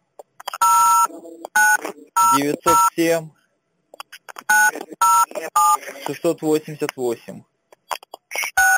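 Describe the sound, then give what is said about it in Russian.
Telephone keypad tones dial the number for the iBox support service, short beeps in quick bursts with pauses between them, while people talk over them. “А ну набери службу поддержки айбокса. А ты можешь набрать, потому что у меня начислено. Давай. 0900.”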